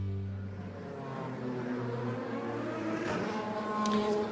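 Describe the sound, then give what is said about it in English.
Race cars racing at the Indianapolis Motor Speedway during a 200-lap green-flag race: a continuous loud engine drone whose tones shift up and down as cars run past, with no break. “Welcome back to the Indianapolis Motor Speedway. Just about ready to go back to Green Flag Racing.”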